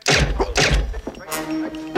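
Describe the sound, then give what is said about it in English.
Two muffled, punchy thuds from a silenced gun fire about half a second apart, each a short heavy burst, followed by a softer stretch of low rumbling and scuffing. “The faceless man shoots Fletcher twice in the chest with a silenced gun.”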